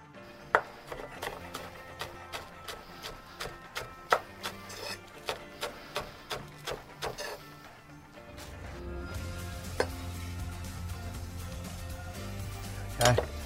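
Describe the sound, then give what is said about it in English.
A utensil stirring a cooking dish in a pan: a regular series of sharp knocks and scrapes, followed by a steady hiss with a few scattered clicks. “Okay, just give it a bit of a stir around again. Really starting to take form, this particular dish now.”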